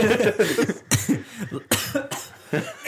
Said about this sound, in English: they having a cough attack.